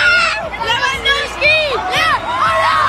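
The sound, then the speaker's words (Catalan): A huge crowd of about 750,000 celebrates during FC Barcelona's league title parade through central Barcelona, a loud, dense babble of voices with high, wavering cries and whoops rising above it. “750.000 persones, segons la Guàrdia Urbana, desborden durant 5 hores al centre de Barcelona per la rua de celebració del títol de Lliga del Barça. Públic embogit.”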